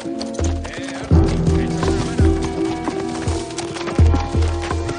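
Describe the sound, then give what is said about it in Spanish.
Horses trot down the main street of a Western frontier town, their hooves clip-clopping in uneven rhythmic bursts of thuds, with voices heard alongside. “Segundos después, atraviesan la calle principal al trote.”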